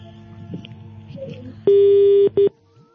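A telephone busy tone sounds after a call is cut off: one steady, mid-pitched beep lasting about half a second, followed by a second, shorter beep, after a stretch of faint background noise.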